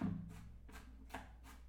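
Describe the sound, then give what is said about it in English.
Knife chopping food into smaller pieces for a pot of beans: four soft, evenly spaced chops, faint and alone. “I'm gonna just go ahead and put some of this, just chop it up a little bit smaller, into the pot for the beans.”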